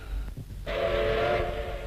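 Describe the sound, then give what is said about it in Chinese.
An armoured train's whistle cuts in abruptly over low rail rumble, then holds as a long, loud, steady tone to the end while the rolling noise continues beneath it. “铁甲列车旁边”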